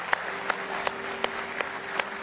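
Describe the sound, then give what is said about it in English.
A church audience claps hands in praise during a morning service. The steady wash of applause is punctuated by sharper, louder claps that recur at an even pace. “Let's give him a good hand clap of praise if you love him this morning.”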